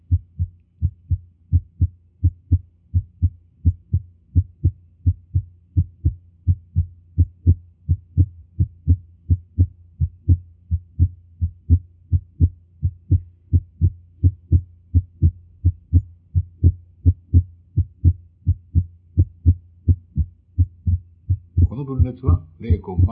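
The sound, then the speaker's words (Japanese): Heart sounds with a split second heart sound beat in a steady, regular rhythm of many low, soft thuds, each pulse evenly spaced and similar in strength, with a brighter, noisier sound entering briefly at the very end. “3番目の調子のポイントは、やはり2音の分裂です。1音と2音が聞こえてまいりました。”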